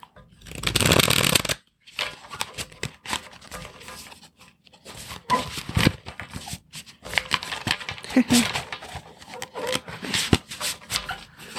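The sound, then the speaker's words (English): Tarot cards are shuffled by hand in many quick, crisp riffling and rustling bursts. A brief pause breaks the shuffling early on, then the flicks and slaps of the deck resume unevenly. “I think I'm gonna pull two cards today.”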